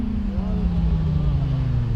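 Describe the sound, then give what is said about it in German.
A loud motorcycle engine runs at a roadside traffic check, giving a steady low drone whose pitch slowly sinks, with faint talk over it. “Beim nächsten Motorrad fällt Thomas Schreck die Lautstärke auf.”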